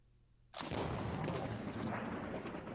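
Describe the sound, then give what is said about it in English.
A very big gun fires at a highly explosive target: after a quiet moment, a sudden loud blast erupts into a sustained, dense roaring rumble that stays loud to the end. “he's firing at something that's very explosive with a very big gun”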